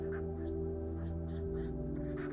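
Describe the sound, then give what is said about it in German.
A pen scratches faintly as terms are written down by hand, with soft, irregular strokes barely above a steady electrical hum. “Ähm, Upsell, ich schreibe mal dahin die Begriffe, die wichtig sind.”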